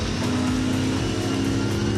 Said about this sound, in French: c'est quel pied ce moteur, quoi. Bon V8, hein.